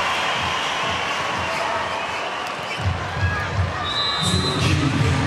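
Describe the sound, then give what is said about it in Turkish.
Loud crowd cheering and applause fill an arena at a Turkish women's national volleyball match against China as the team takes the court before the tiebreak set. The roar is steady and dense, with heavier pulsing swells in the second half. “Evet, alkışlar Filenin sultanlarına. Takımımız sahada.”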